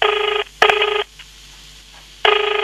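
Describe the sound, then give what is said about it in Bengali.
A telephone rings in three loud electronic trilling bursts at a steady high pitch, the first two close together and the third after a longer quiet gap, with a sharp click between bursts. “আবার কার phone এলো?”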